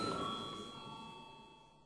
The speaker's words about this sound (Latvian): Paldies, lūdzu zvanu.